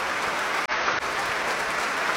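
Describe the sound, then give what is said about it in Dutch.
Thunderous applause fills the main hall of the Concertgebouw, a dense, loud wash of clapping that stays steady apart from a brief dropout early on. “een daverend applaus hier. In de grote zaal van het Concertgebouw.”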